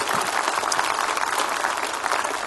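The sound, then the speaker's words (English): An audience in church applauding together, a steady unbroken wash of many hands clapping at an even level throughout. “Let's put our hands together in all of our rooms and greet your church family here today.”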